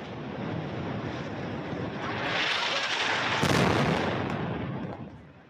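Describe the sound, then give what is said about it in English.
Airstrikes in Gaza City: a dense, heavy roar and rumble that swells toward the middle, with one sharper burst near the peak before slowly easing off. “This appears to be airstrikes in Gaza City.”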